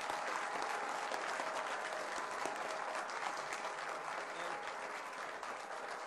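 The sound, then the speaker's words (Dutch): Applause fills a provincial council chamber after a new provincial executive is sworn in, a dense, even clapping from many hands that carries on steadily from start to finish. “Dank u wel, van harte gefeliciteerd en mag voor geapplaudisseerd worden.”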